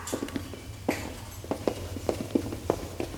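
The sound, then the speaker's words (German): Quick running footsteps at a riding stable as someone hurries ahead to the pony stalls, a faint, fairly regular series of many soft thuds. “Conny erkennt sofort, wo die Ponyställe sind und läuft schon mal voraus.”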